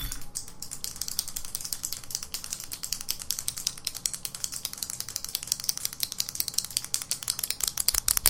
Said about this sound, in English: you gotta get a pen. That clicks. Oh, this one clicks.